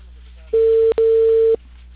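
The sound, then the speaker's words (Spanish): A phone's ringback tone on an outgoing call: a steady, mid-pitched electronic tone in two bursts split by a brief gap, over a faint low hum. “¿Pero no te contestó o sí te llegó a contestar? Estoy timbrándole.”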